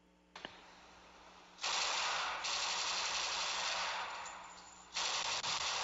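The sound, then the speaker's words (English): A Thompson submachine gun fires at the Scottsdale Gun Club in Phoenix, played back from a video recording. A short click comes first, then two long, rattling bursts of automatic fire that sound muffled and thin. “That was a video taken of me on the Thompson, one of two that I fired at the Scottsdale Gun Club in Phoenix.”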